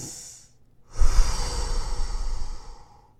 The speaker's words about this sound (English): The best you can do is take a deep breath.